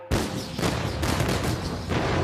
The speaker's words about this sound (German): Die Artillerie eröffnet das Feuer.